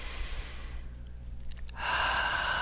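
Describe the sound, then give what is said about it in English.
A slow, deep breath: a long, airy rush of air, a quiet pause, then a fuller, steadier breath sound, over a faint low hum. “Nice deep breath.”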